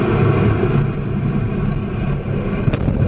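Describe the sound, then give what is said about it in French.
An Ariane rocket's Vulcain engine igniting at liftoff: a deep, continuous, loud roaring rumble that holds steady with no talk. “Allumage des deux API, décollage Ariane VA247.”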